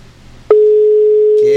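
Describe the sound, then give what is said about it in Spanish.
A telephone line tone on a call that fails to connect: one steady, unbroken mid-pitched tone starting abruptly, with a voice beginning over it just before the end. “vamos a ver por qué será que no entra la llamada.”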